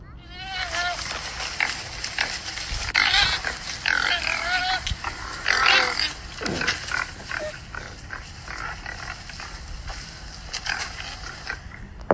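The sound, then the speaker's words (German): A forest wild boar grunts, snorts and squeals in irregular bursts, with rough, nasal grunts and a few sharper high squeals. The calls come in many uneven clusters over a low, steady background noise. “Ich denke, es ist ein Wildschwein”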